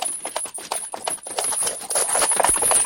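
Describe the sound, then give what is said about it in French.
Horse trotting with steady clip-clopping hooves, a continuous run of many quick hoofbeats in an even rhythm that grows slightly louder. A faint high, steady tone sits over it. “Soudain, on entend venir de loin un cheval au trot.”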